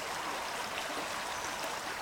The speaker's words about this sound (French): C'était la source de la Sensée,